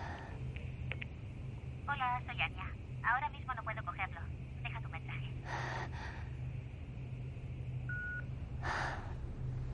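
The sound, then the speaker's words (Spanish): Electronic tones of a mobile phone as a call is placed in a hospital room: several bursts of quick warbling beeps, then a short steady tone, all faint over background hiss. “Coge el móvil. Llama.”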